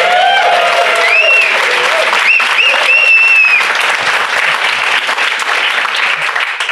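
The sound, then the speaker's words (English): Enthusiastic audience applause from a North Carolina crowd at a live stop on a developer-technology road trip. Loud, steady clapping carries a few shrill whistles and eases slightly toward the end. “I love an excited audience. And we love North Carolina. Give yourselves a big hand.”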